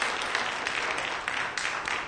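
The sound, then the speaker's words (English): Congregation clapping hands in praise during a church service, a dense, steady patter of many claps at a fairly soft level. “Come on and give God some praise. Come on and clap your hands for Jesus.”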